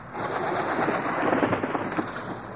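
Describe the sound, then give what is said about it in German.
A bird beats its wings in a quick flurry as it takes off. The flapping makes a dense, breathy whirr that holds a fairly even loudness for a couple of seconds, with no voices. “Ehe sie sich aber noch für eins entscheiden können, flattert Kleopatra los.”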